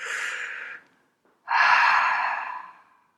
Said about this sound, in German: wenn ich merke, ich rede gerade wieder schnell, tief einatmen